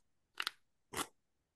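Playing cards are shuffled in a deck, two short, crisp rustling bursts separated by a brief pause, quiet and otherwise alone.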